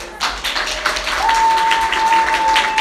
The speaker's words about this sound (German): Applaus im Haus der Jugend